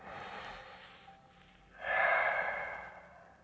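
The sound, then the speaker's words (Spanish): Breath is drawn in deeply as a soft, airy inhale, then released in a louder, fuller rush of air during a guided belly-breathing exercise. “Vamos a respirar hondo y profundo. sonoro, no importa.”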